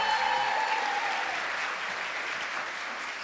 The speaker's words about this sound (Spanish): ¡Aplauso para mi amigo número 2!